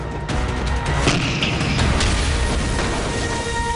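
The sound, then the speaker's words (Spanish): Heavy battle noise from artillery fire in a Yom Kippur War tank battle: a dense, loud, rumbling roar that holds steady throughout, with a few brief blasts standing out. “Un oficial de mi batallón disparó un obús.”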